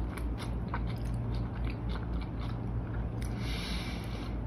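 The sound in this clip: Crunchy biting and chewing of a spicy snack eaten by hand, a steady run of crisp crunches without pause, with no talking.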